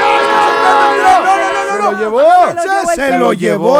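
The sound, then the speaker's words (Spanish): A train horn sounds a loud, steady, sustained tone for nearly two seconds, followed by excited shouting voices whose pitch slides up and down. “Se lo llevó el tren.”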